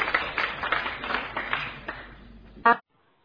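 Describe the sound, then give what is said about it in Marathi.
Schoolchildren in a classroom clapping to welcome a schoolmate invited to speak, a brisk patter of claps that fades gradually, ended by one short, sharp, ringing hit and then silence. “आपण तिचे टाळ्या वाजून स्वागत करूया”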